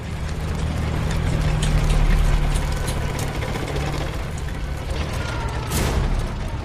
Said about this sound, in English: Outside, a large metal machine rolls toward the temple.